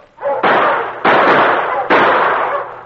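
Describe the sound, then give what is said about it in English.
Three loud gunshots ring out one after another in a snowy frontier chase toward a sled, each a sharp blast followed by a long decaying boom, spaced under a second apart. “Stop! Stop or I'll shoot!”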